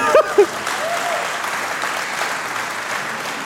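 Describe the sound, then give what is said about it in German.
Audience applause: a dense, even patter of many hands clapping that holds steady throughout, with a couple of sharp, brief accents right at the start. “Ja, jetzt dürft ihr applaudieren.”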